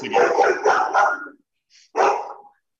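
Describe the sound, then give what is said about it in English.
A dog barks in a few loud, harsh bursts: a quick run of barks, a short pause, then another bark. “That's my dog.”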